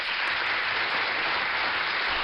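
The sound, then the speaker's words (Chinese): Applause praising a child during a parent Q&A session comes through as a steady, continuous rush of clapping, dense and even, with no voices over it. “真的要再给你送一个掌声啊。”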